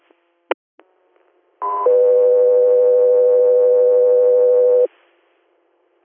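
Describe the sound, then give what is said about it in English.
Radio dispatch alert tones for an air medical service: after a few faint clicks, a short higher tone steps down into a long, steady lower tone lasting about three seconds, loud and clean. “Guthrie Air, standby for tones.”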